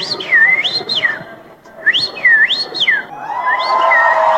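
A finger whistle imitates the song of a common rosefinch in two loud, high swooping phrases separated by a short pause, then a fainter third phrase begins.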